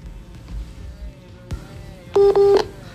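Telephone tones on a dropped phone call: two short, loud electronic beeps near the end, following faint background noise and a single soft knock.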